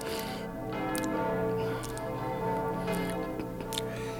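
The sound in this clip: Church bells ringing in London, faint and steady, with a sustained tonal hum and a few evenly spaced brighter strikes running through it.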